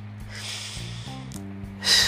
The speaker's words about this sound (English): take a deep breath in, exhale it out, do it one more time, in